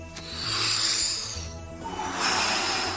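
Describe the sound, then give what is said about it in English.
Breathing: two long, airy, hissing breaths, each lasting about a second, separated by a short dip, with steady, fairly loud noise throughout. “Step one, breathe.”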